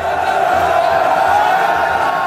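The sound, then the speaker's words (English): Crowd booing from Hong Kong pro-democracy protesters at the Chinese flag during a China National Day celebration: a loud, sustained mass of jeering voices with no break. “On Wednesday, protesters booed the Chinese flag during a celebration of China's National Day.”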